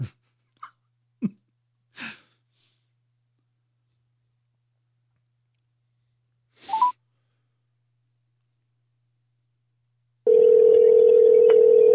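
Telephone sounds while redialing: a few short clicks and taps early on, then near the end a steady, loud dial tone comes in and holds without a break.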